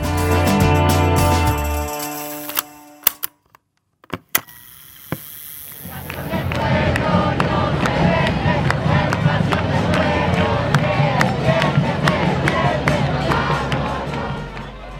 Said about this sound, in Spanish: en medio de una marcha en las calles del centro de la ciudad de Córdoba. Es un hervidero de gente manifestando en defensa de la educación pública.